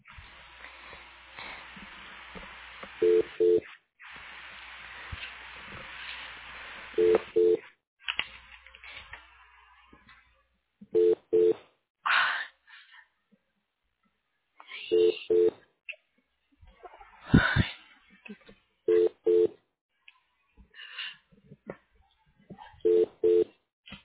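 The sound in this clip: Telephone keypad tones ring out as a number is dialed, with short dual-tone beeps recurring in spaced bursts over a steady hiss and occasional brief voice fragments.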